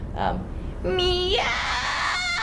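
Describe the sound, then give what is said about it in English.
A human voice does a vocal fry scream, imitating a screeching cat: a short cry comes first, then a longer, louder screech that climbs in pitch and turns raspy and noisy. “When it comes to fry screams, which is another scream technique, so cackling or screeching like a cat is an example that you can use.”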